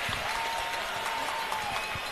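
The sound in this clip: Crowd noise from spectators at an indoor football game in Albany, a steady roar of clapping and cheering that stays at an even, moderate level.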